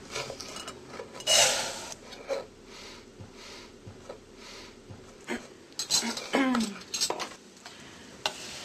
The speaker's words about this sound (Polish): Słyszymy, aż kasza zaczyna świerczeć.